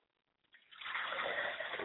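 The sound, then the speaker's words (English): Water poured onto the ground as a ritual libation. A soft trickle begins after a short quiet moment and quickly swells into a steady, splashing stream. “We pour libation to the north and we say Ashe. We pour libations to the south and we say Ashe.”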